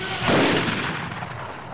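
A shotgun fires once during skeet shooting in a film: one sharp, loud blast that trails off into a fading rumble.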